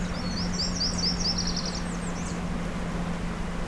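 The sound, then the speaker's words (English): Black-and-white warblers and a song sparrow sing among a group of migrants: a high, thin, rapid series of squeaky repeated notes runs for about two seconds over a steady low hum, then fades. “we're listening to black and white warblers and a song sparrow.”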